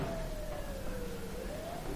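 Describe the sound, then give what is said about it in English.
A mobile phone ringtone: a faint, steady electronic tone that dips slowly in pitch and then rises again, heard alone over a low background hiss with no talking. “that's either my phone or it's a siren. That's my phone, actually. I thought I silenced it.”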